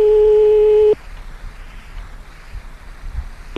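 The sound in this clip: A telephone line tone plays while a call is being redialed. It is a steady, loud electronic tone with two stacked pitches that cuts off abruptly after about a second, leaving faint line hiss and low rumble.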